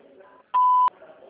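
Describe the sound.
A single steady telephone beep sounds after a recorded queue message: one clean mid-pitched tone lasting about a third of a second, rising sharply above a quiet, low hiss and cutting off abruptly.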